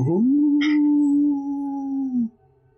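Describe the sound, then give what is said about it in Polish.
A human voice imitates a dog howling outside on a rainy October night. The single long, mournful, mid-pitched howl swoops up at the start, holds steady for about two seconds, wavers slightly, and then breaks off. “za oknem w tym deszczowym, deszczowym październiku wyje jakiś pies, który podkreśla dziwaczność tej waszej rozmowy.”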